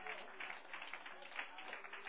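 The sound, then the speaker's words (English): A church audience clapping its hands, a faint, muffled, continuous patter of many hands with small surges, heard thin and quiet throughout. “Let's clap our hands to Jesus.”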